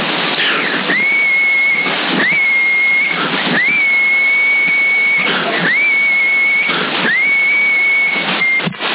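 Whistle tones sent over CB radio, heard as a string of steady, fairly high pure tones. Each tone follows a harsh burst of static, and the sequence repeats at a roughly even rhythm under loud, hissy band noise.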